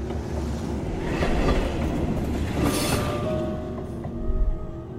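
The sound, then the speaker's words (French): A passing train rumbles steadily with a deep, broad roar, faint squealing tones riding on top, swelling in the middle and again near the end. “Je vois des trains.”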